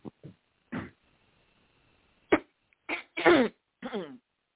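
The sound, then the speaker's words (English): Someone clears their throat before going on: a series of short, rough, guttural bursts with a cough-like edge, separated by brief silences and a longer pause in the middle. “And before we go on, just trying to clear my voice a little bit here. Excuse me.”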